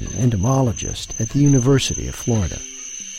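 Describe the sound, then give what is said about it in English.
A night chorus of true katydids and Columbian green trig crickets along a wooded creek in Florida forms a steady, high insect drone beneath a voice talking. “The very loudest sounds are made by true katydids, and then there are some fairly loud tinkling chirps that you hear occasionally coming to focus, and they're made by a cricket which is called the Columbian green trig.”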